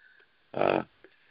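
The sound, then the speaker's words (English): A horse snorts once: a short, loud, breathy burst lasting about a third of a second that stands out against a quiet background. “excuse my horses”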